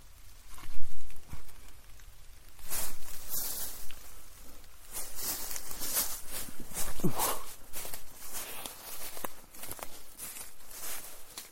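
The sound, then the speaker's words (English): Footsteps of a person walking back to a car through a very old graveyard, with many steady, crisp steps in an even rhythm at moderate loudness. “I'm walking back to the car.”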